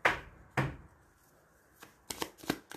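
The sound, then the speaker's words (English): Tarot cards being pulled from a deck: several short, crisp snaps and slaps at irregular intervals, two louder ones early and a cluster of quicker ones near the end, with quiet gaps between. “I'm going to pull some more cards to see what's going on with the Five of Wands”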